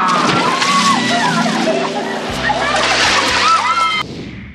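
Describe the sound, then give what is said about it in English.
Water splashing and sloshing as something splashes down, a loud, continuous churning that stops abruptly just before the end, leaving a faint tail. “ETA to splashdown! Two seconds!”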